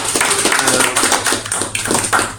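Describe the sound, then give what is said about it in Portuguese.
Applause from an audience after a lecture, a busy patter of many hands clapping at a steady loudness, briefly thinning near the end before picking up again. “Uma salva de palmas, por favor.”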